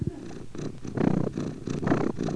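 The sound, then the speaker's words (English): A cat purrs in low, rumbling pulses that swell and ease in a regular rhythm, moderately loud and alone, with no voices. “It's cat purr.”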